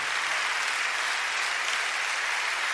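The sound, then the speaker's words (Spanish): Congregation applause offered to the Lord for his presence: a continuous, dense sheet of clapping that holds a steady, moderately loud level without pause. “dan un aplauso al Señor por esa presencia.”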